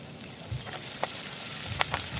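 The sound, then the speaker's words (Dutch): Food sizzles in a hot pan in a kitchen, a faint, steady crackling hiss broken by a few sharper pops. “Dit klinkt lekker, hè? Een sizzling pan.”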